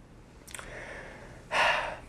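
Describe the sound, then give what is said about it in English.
A person takes deep breaths: a brief, soft breath comes first, then after a pause a much louder, longer airy breath, heard alone with no talking. “take some deep breaths and some sighs”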